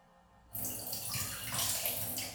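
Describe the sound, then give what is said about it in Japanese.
Liquid, urine from a plastic bottle, is poured away: after a brief quiet start, a steady, fairly loud gushing splash begins and runs continuously to the end. “今回こんな感じでペットボトルにおしっこしていきました。じゃあ流しますね。”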